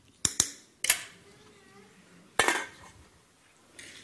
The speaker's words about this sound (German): So, zwischendrin einmal umrühren da.